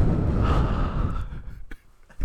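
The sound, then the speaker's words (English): Close breathing blows straight into the microphone as a loud, rushing exhale that lasts about a second. It then fades into softer, fainter puffs of air. “You feel that on your eardrums? Do you feel that? Do you like it when I breathe?”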